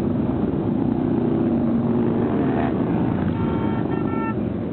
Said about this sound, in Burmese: ဆိုင်ကယ်စီးတဲ့သူပေါင်းသိန်းနဲ့ချီဟာ Washington DC တစ်မြို့လုံးကိုလှည့်လည်ပြီးတော့မောင်းနှင်နေတာကြောင့်မိုးချိမ့်တယ်လို့မျိုးကြားနေရတာပါ။